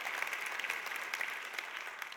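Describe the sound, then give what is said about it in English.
A church audience claps along during a worship service. The claps are dense and continuous, steady and fairly soft, with no breaks. “Come on, let's clap to Jesus.”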